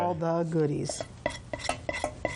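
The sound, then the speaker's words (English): A spatula stirs a cereal dessert mixture with several irregular, soft scraping and clacking strokes. A brief voiced sound comes at the start. “I usually just take and stir it around a little bit to get that mixed in because we're getting ready to take all of this and put it in. Put it in with the cereal.”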